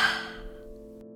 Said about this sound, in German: Setze dich hin und schließe deine Augen. Atme einmal tief ein und wieder aus.